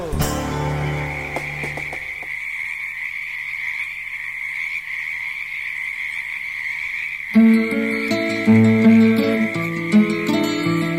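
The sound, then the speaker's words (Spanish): Frogs croaking and crickets chirping at dusk: a steady high insect trill runs throughout, with frog calls beneath it, and instrumental music joins in for the last few seconds. “Tardecita de grillos cantores y ranas entre las charcas.”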